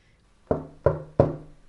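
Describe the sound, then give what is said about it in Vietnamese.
Knocking on a door: three firm, evenly spaced knocks, each a sharp rap with a resonant low ring, heard alone after a brief quiet start. “Cửa ra vào vang lên tiếng gõ, Lầu Thiếu Bạch”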